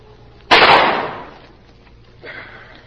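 A single gunshot cracks out sharply and loudly, then fades through a rough, decaying tail over about a second. A much fainter burst of noise follows later.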